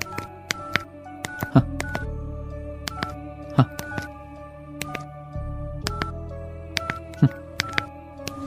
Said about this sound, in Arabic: والمحقق يتصل بالرقم، قدر الله عز وجل أن تكون نغمة لوحة المفاتيح مسموعة، يعني صوت أزرار جواله مفعل، وبينما هو يضرب الرقم هكذا،